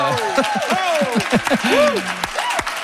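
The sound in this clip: Live radio show audience applauding, a steady wash of clapping mixed with shouts and whoops that rise and fall throughout, loud and continuous.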